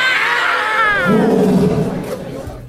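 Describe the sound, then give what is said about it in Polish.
A person imitating a lion's roar: one loud, sustained growling roar that starts high and strained, then drops lower and rougher before trailing off. “Potraficie tak zaryczeć jak lew?”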